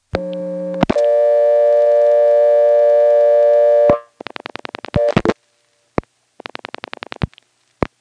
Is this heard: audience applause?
no